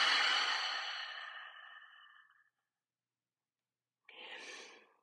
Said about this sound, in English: Let's take a nice big inhale.